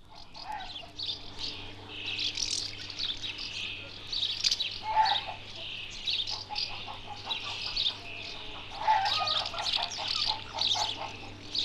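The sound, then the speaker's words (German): A house martin colony calls with busy, high, twittering chirps that overlap and repeat throughout at a moderate level, with no voices. “Jetzt folgt eine Aufnahme aus dem Leben einer Mehlschwalbenkolonie”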